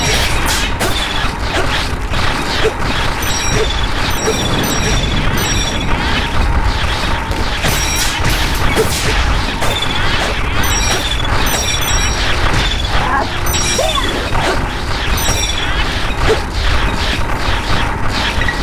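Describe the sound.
A mechanism locks a room with a lava pit in a video game, producing a loud, steady grinding rumble with clanking and creaking that runs the whole time without a break.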